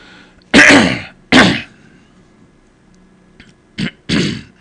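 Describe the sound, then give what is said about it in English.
A person coughs and clears their throat, trying to get out something that feels stuck in the throat. Four harsh bursts: two long, loud hacks, a pause, then a short cough followed by a longer one, with no talk. “I'll hack all day. It'll be like I was just doing a second ago. I'll do it all day. I'll be just trying to get something out. More coughing, less throat clearing.”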